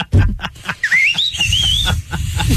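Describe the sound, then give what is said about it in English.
A person whistles by mouth, using the tongue to shape the note. A single high, wavering tone rises and then slides unevenly for about a second, surrounded by breathy puffs and low rustling. “then you got to kind of pull it off a little to make the whistle.”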